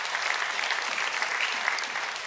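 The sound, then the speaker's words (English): Congregation applauding, a dense and even wash of many hands clapping at once, steady in level with no break for a couple of seconds. “Go ahead and clap.”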